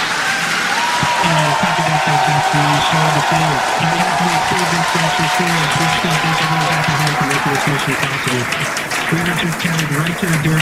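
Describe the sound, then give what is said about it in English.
The SpaceX team cheers and claps loudly at a launch, with dense, steady applause and shouts throughout and a voice talking beneath the din. “you couldn't hear a word he was saying because the SpaceX team were just so loud”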